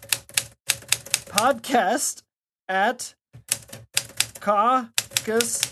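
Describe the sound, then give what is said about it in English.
An old typewriter clacks in quick runs of crisp key strikes, heard under and between people talking. “Yeah, that is my actual typewriter. That was sweet.”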